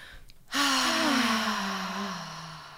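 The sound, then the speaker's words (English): A single deep breath, a long audible inhale with a soft, breathy sigh-like tone that slowly tapers away over about two seconds, heard alone with no talking. “Take a deep breath.”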